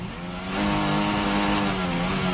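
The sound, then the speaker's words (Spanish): A Formula 1 car doing donuts after the Abu Dhabi Grand Prix, its engine a continuous harmonic drone. The roar swells early on and then holds loud and steady. “Abandonó Carlos Sainz y Fernando Alonso fue noveno. Lo celebró con trompos o con donuts, como dicen ellos.”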